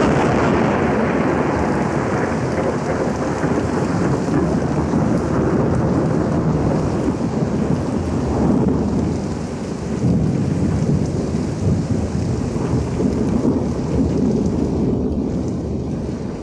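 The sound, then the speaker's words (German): A summer thunderstorm with dense, steady rain that hisses and roars loudly the whole way through, deep low thunder rumbling beneath it, and no voices. “Der Sommer kündigt sich frühzeitig mit Gewittern an. Der Sturm stürzt ein paar alte Bäume über den Wall hinab.”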